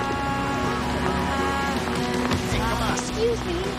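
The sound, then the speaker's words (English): Busy New York City street ambience: a steady, dense wash of traffic noise with scattered footsteps and faint murmuring voices blended in throughout. “This fades to a busy city street.”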